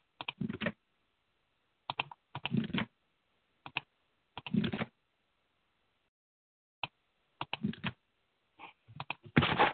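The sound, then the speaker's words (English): Typing on a computer keyboard while entering keywords: several short clusters of quick clicking keystrokes separated by pauses, ending in a denser, louder run of typing. “I did that pretty fast because what I did is I typed it in first and then I copied it and I just pasted it back in.”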